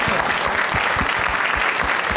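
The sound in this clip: A crowd applauds a guest as he is introduced: dense, steady, loud clapping that holds at an even level from start to finish.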